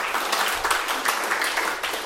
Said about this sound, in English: Let's give him a warm round of applause.